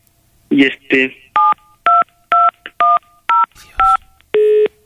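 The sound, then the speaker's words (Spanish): Telephone keypad tones sound as a series of short, evenly spaced beeps, the last held noticeably longer, after two brief noisy bursts at the start. “A ver, le intento marcar aquí.”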